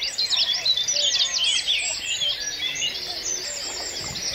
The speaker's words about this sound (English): here we have uh, the bitten booming. We've got a cuckoo crawling continuously against a wall of sound created by reed warblers.